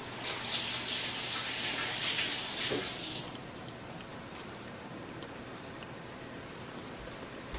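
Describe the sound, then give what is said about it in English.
Running water splashes while hands are washed: a loud, steady hiss for about three seconds, then a quieter, even flow that continues to the end, with no talking. “I'm gonna wash my hands real quick.”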